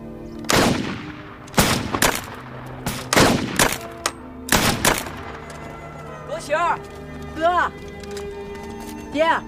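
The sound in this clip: Gunshots ring out during shooting practice: a series of sharp, loud, cracking reports in irregular bursts, some fired in quick pairs, each ending in a short decaying tail.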